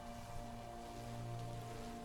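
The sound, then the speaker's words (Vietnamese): Heavy pouring rain in wild mountain forest, a faint, steady hiss of water with no distinct drops, over a low constant hum. “trả lời Thắng chỉ là tiếng vọng lại của cơn mưa tầm tã”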